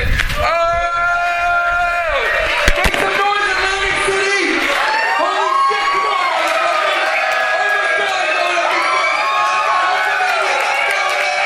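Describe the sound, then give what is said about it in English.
Comedy club audience in Atlantic City cheering and applauding for the host, a loud continuous roar with whoops and shouts that holds steady throughout. “Make some noise, Atlantic City! Louder, Atlantic City! Keep it going for your host.”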